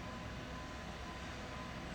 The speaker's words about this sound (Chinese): 这种火车是吃柴油的嘛？